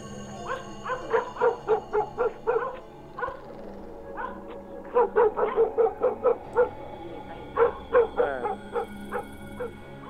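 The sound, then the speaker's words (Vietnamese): Dogs bark around a village in three loud bursts of rapid, sharp yapping barks separated by short pauses, with no voices. “Ở xung quanh, tiếng chó cứ sủa ầm ĩ cả lên, rồi chó tru dài rộn ràng cả xóm, tạo lên cái thứ âm thanh hỗn độn đến khó chịu.”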